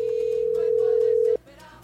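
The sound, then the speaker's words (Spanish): Telephone tone while dialing out on a call: one steady, loud pitch holds for over a second, then cuts off abruptly, leaving faint background noise. “Vamos a marcar por aquí, por aquí, por aquí, por aquí, por aquí, por aquí. Y ahí está marcando.”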